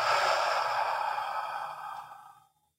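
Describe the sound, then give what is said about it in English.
A slow, deep exhale during a guided breathing exercise: a long, soft, breathy rush of air that gradually tapers away to silence over about two and a half seconds. “Let's take a nice, slow, deep breath. And exhale.”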